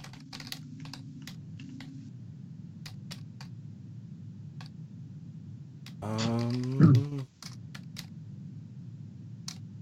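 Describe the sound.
Computer keyboard typing while someone looks something up: quiet, irregular key clicks run throughout, with a short voice sound about two-thirds of the way through.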